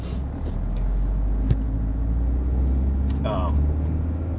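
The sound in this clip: Steady road noise from inside a car on a drive to work: a low, continuous engine and tire rumble with faint hiss and one brief click, and no distinct revving.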